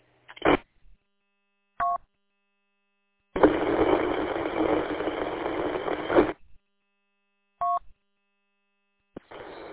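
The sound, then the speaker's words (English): Telephone dialing tones come as a few short beeps separated by silence. A longer stretch of harsh, buzzing noise sits between them. “I got to call Melissa back. Her phone was really bad.”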